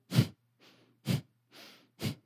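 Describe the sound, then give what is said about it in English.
Breath of Fire breathing exercise: three sharp, forceful exhales blown out through the nose at an even pace, each followed by a softer, quicker inhale snapping back in. “blow out through your nose like you're blowing into a tissue. And what's going to happen is you're automatically going to kind of snap back with the inhale.”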